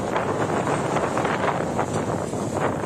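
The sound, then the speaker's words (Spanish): Strong wind blows at a spreading fire near homes, a loud, continuous rushing roar of gusts buffeting without a break. “Y el viento cada vez más fuerte.”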